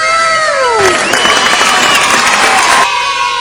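Studio audience cheering and clapping, a loud burst of shouts and clapping rising over a lively crowd that lasts about two seconds before dropping back to a murmur.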